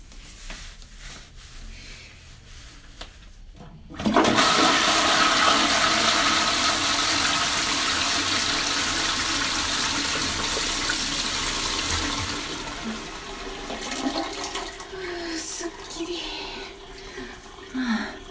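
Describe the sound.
A toilet flushes at home. After a few quiet seconds, a sudden loud rush of water breaks in, then slowly eases into a long hissing refill with trickling water.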